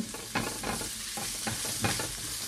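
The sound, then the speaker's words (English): Ground turmeric and other ingredients sizzling in a frying pan as they are stirred continuously, a steady hiss of frying broken by repeated scraping strokes of the utensil at an uneven rhythm, fairly quiet with no talk. “So I'm just going to continue moving everything around that pan, never stop moving.”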